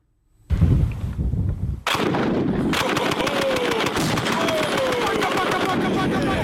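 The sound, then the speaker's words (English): A Browning automatic rifle (BAR) fires. A loud opening burst of rapid shots is followed by a continuous, harsh rattle of automatic fire that keeps going to the end. “Now, listen to a Brown automatic rifle, otherwise known as a BAR, which is what the Barrow Gang had.”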